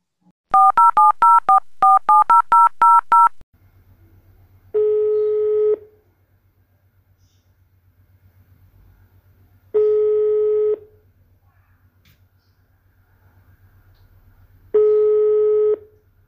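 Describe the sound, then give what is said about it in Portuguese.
Telephone being dialed: a rapid run of bright keypad tones, then three evenly spaced, steady mid-pitched tones of about a second each, separated by long pauses over a low hum. “Eu vou ligar para a Betina agora.”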